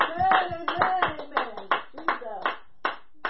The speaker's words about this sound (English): Somebody clap their hands unto the Lord.